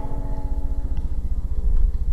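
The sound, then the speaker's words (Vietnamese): A car engine running after being started by key, a steady low rhythmic throb with no talk, growing slightly louder toward the end. “Phó Nhiễm móc chìa khóa xe ra, phát động động cơ”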